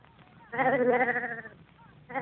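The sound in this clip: A sheep bleats in one long, loud, wavering call, then a second bleat begins near the end, with softer sounds in the gaps.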